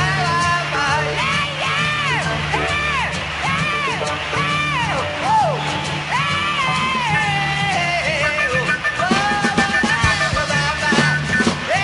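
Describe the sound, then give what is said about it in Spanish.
An audience cheers and yells in a loud, continuous crowd roar. Chant-like voices rise and fall repeatedly through the first half, and the noisy cheering carries on throughout. “Vamos, loco, aplaudan todos ahora.”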